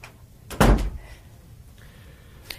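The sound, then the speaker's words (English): A door being shut indoors, giving one firm, loud thud followed by quiet. “I'll go on in then and shut the door after you. Keep the draft out.”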